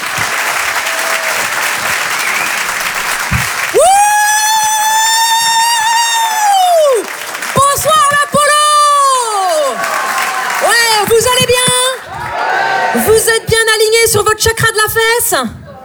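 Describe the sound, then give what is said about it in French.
Audience applause and cheering greet a comedian at a live comedy show. Steady clapping opens the sequence, then a loud voice speaks over the continuing applause in bursts until the end. “Faites du bruit pour Stéphanie Jaroux.”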